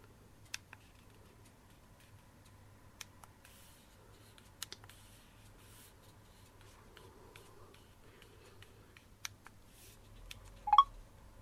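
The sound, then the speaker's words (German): Faint, sparse key clicks from a PIN being typed on a Bluetooth keyboard, widely spaced across a quiet background, followed by a brief, slightly louder tone near the end. “Geben Sie den PIN-Code 9617 auf Bluetooth Keyboard ein und drücken Sie dann die Return- oder Eingabetaste.”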